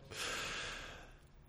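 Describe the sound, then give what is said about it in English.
A single deep breath drawn in, a soft airy rush that swells quickly, holds for about a second, then fades. It is fairly quiet and heard alone. “Let's take a deep breath.”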